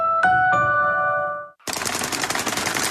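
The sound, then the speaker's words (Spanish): Sewing machines start up with a rapid, loud, rattling chatter that sounds like machine-gun fire. A couple of electronic tones ring out just before. “Cualquiera podría pensar que estas son armas accionadas por un combatiente en la selva. En realidad, no son más que máquinas de coser.”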